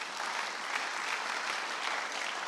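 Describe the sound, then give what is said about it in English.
An audience claps hands at a church service, producing a dense, steady roar of applause that stays loud and even throughout, with no pauses or voices standing out. “Can you clap your hands for your Heavenly Father?”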